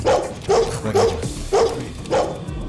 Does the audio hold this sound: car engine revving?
no